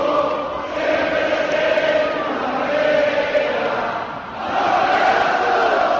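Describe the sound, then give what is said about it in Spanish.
Unicaja basketball fans roar and chant in the Martín Carpena arena, seeing off their Copa champions after a Liga ACB semifinal. The loud, sustained crowd noise dips briefly, then surges again. “Impresionante el sonido de la afición de Unicaja despidiendo a los campeones de Copa que han llegado hasta la semifinal de la Liga CB. Enhorabuena al Barça, que va a jugar la final con el Madrid. Pero este era el ambiente en el Martín Carpena.”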